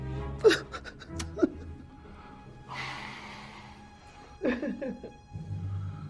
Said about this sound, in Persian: مادر جان چرا گریه میکنی؟